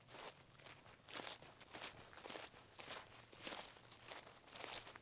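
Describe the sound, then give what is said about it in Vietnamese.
Shuffling footsteps pacing back and forth outside at night in a garden by a starfruit bush: many soft, scuffing steps in a loose, regular rhythm, faint and without voices. “Từ cánh cửa sổ bên ngoài vườn, ngay chỗ bụi khế, tôi mơ mơ hồ hồ nghe thấy có tiếng bước chân đi đi lại lại loẹt xoẹt, loẹt xoẹt.”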